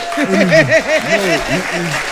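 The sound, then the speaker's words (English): Hands clapping beneath a prominent voice whose tones rise and fall in a sung or chanted line, the clapping forming a steady patter under it. “I need to clap for you.”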